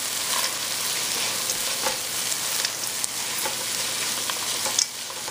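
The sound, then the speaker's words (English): Peas frying in a pan with infused dill weed, giving a steady, dense sizzle with scattered small crackles and pops that stays fairly even throughout. “we're gonna go ahead and add our peas in there. Fry those up just a little bit.”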